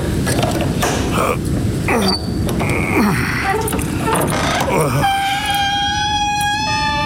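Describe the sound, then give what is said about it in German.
A gate is opened, first with a few seconds of clattering, knocking mechanical noise, then a long sustained creak with a steady groaning tone toward the end. “Aber wenn das so ist, dann wird es dir ja nichts ausmachen, mir das Tor zu öffnen, damit ich in den Hof reiten kann.”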